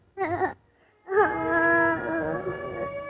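A little girl crying: a short wavering wail, a brief pause, then a longer sustained, high-pitched moaning cry whose pitch wobbles before settling.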